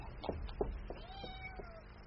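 A cat meows faintly, Mr. Krook's cat from Bleak House: a few soft clicks followed by a single drawn-out meow.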